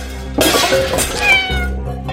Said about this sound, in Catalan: El pobre gat no té menjar i s'està fotent de gana.